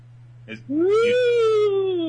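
A pet cat lets out a drawn-out meow, a loud tonal cry that rises and then slowly falls over about a second and a half, after a brief faint chirp, over a steady low hum.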